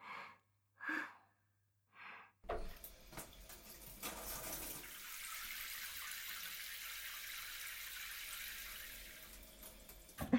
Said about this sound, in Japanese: けど泡を流していきましょうね。